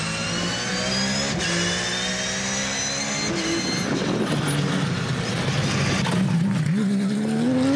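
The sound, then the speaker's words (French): A very low-slung car roars as it powers out of tight chicane corners, the loud continuous engine note climbing in pitch, dropping back, then climbing again. “la voiture est très très basse. Et comment ça ressort des virages, c'est un missile.”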